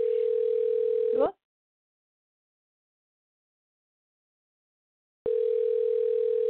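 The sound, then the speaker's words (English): A telephone rings during a radio interview, giving two long electronic rings at one steady mid pitch, each about a second long, separated by a silent gap of several seconds. “why is that ringing?”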